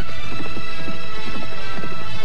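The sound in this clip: Galloping horses with riders pressing them faster on a journey. Their hooves pound in a dense, continuous, loud clatter that fills the whole stretch.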